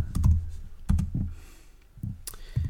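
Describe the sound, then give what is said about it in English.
Fingers type on a laptop keyboard in irregular bursts of quiet clicks and taps, with a short lull partway through before the typing resumes. “Let me just type in something in my laptop to see if I can...”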